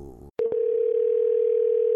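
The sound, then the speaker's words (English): Telephone dial tone heard while placing a call: a couple of brief clicks, then a steady, unbroken, loud tone that holds at one pitch to the end. “why don't we just get her on the phone and let's see what she has to offer you. And here we go.”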